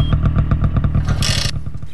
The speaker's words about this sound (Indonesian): itu macam bunyi motor.